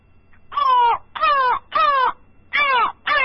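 Harsh crow caws ring out in a run of five, each a coarse, buzzy burst about half a second long, separated by short gaps, loud and alone with no voices.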